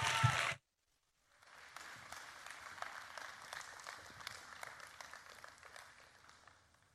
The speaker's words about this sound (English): Let's give him a hand as he comes and shares God's word with us.